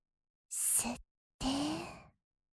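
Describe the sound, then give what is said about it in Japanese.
Breathing in and out, paced by a guided breathing exercise: two separate airy breath sounds, a short hissing one followed by a longer one carrying a faint voiced tone, with a brief silence between them. “吸って、吐いて、吸って、吐いて、”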